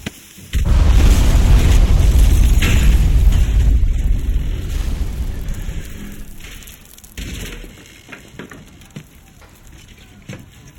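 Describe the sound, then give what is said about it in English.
A pipe bomb exploding: a sudden loud blast erupts into a heavy roaring rumble that slowly fades over several seconds, followed by scattered crackling and debris sounds. “Pipe bomb! Move it!”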